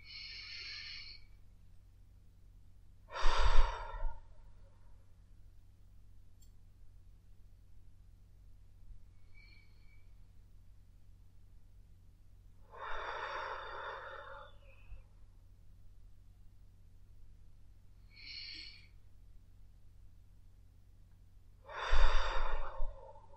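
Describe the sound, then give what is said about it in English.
Deep, slow, unhurried breathing during a guided meditation. Three long, airy breath cycles come roughly ten seconds apart, with fainter breaths between them over a low steady hum. No one talks. “Take 3 more deep, unhurried breaths.”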